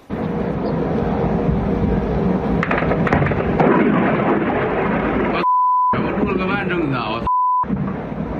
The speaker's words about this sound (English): this key oil refinery, less than 10 miles from the Kremlin, was damaged with the roof of one structure blown clean off. Watch this.